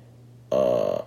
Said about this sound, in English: that's my phone going off